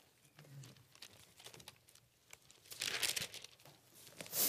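Pages of a Bible being turned give soft, papery crinkling and rustling, with a few brisk bursts that grow louder toward the end. No voices are heard.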